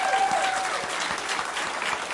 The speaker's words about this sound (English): Round of applause for Mr.